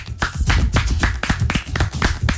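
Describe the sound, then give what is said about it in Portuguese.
Applause for a football goalkeeper's standout match: quick, steady, loud claps repeat without pause over a dense, low background. “Salva de palmas.”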